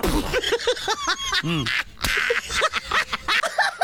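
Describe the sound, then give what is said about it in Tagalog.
Duck quacking in a rapid, irregular run of many loud, nasal, raspy calls, some clipped and some drawn out, continuing without a break from start to finish. “Ang sunod sa malita, itik.”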